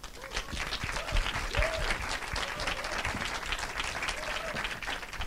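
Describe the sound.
Applause from an audience welcoming two filmmakers onto the stage for a talk: a sustained, crowded wash of clapping that keeps a steady level for the whole stretch.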